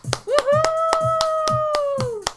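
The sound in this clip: Applause breaks out at the close of an exercise class as hands clap in a quick, even, steady rhythm. A loud sustained cheering voice rises above the claps throughout.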